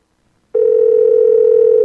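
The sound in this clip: Telephone dial tone on a call placed from Seattle: after a brief silence, a loud, steady, unbroken hum at one pitch sounds alone until the end.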